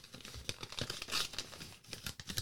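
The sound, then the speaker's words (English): Crackly tearing of a taped paper envelope being ripped open and torn in half, heard as a quick run of rough, papery rips and crinkles with no talking. “just tore it in half.”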